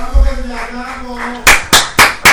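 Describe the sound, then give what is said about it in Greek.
Four sharp, evenly spaced hand claps ring out in a steady rhythm after a quieter tonal opening, each clap a crisp, loud slap. “Μας την πάνε παλαμάκια, θέλουν να φύγουν.”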